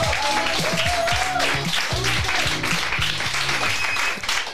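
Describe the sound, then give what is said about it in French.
Audience applause at a live game show greets the top-scoring player of a match, a dense steady wash of clapping with voices calling out through it, easing slightly at the very end. “On peut encore une fois l'applaudir.”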